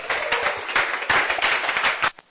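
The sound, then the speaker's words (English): An event audience gives a standing ovation as a speaker is called forward: thick, continuous clapping from many hands, loud and steady. It cuts off sharply just before the end, leaving a brief lull and a last small burst. “Ladies and gentlemen, with a standing ovation, please put your hands together as I call Ayo Fadumiye, our leadership doctor, as he comes forward. Please keep clapping, keep clapping.”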